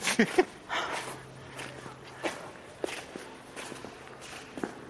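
Footsteps walking in an uneven series of many soft thuds and scuffs with irregular gaps, some steps sharper and louder than others, over a low background hum.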